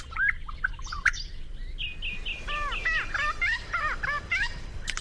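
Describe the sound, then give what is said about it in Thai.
Songbirds singing: a busy stream of bright chirps and whistled notes, with runs of quick, repeated, arching calls that overlap one another, loud and steady throughout. “นกร้องเพลงตัวผู้ที่อายุอย่างน้อยมักจะเรียนรู้เสียงเพลงของพวกมันจากการขับขานของนกที่โตเต็มวัย”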